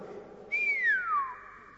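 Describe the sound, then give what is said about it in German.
An appreciative whistle by a person, a single clear tone that starts high and glides steadily downward in pitch, then fades, fairly loud and alone. “als er die Augen wieder öffnet, da lässt er die Luft entweichen in Form eines anerkennenden Pfiffes. Also ungefähr so.”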